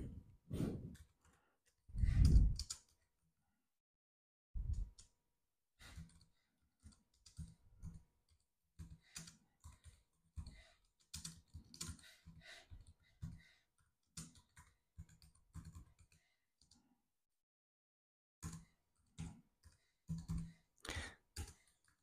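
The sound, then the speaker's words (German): Soft keyboard typing while writing a message: irregular bursts of light, quick clicks broken by short pauses between runs, faint and with no voices. “ich schreibe einfach auf Instagram, darf ich dein neues Lied in meinem Podcast anhören?”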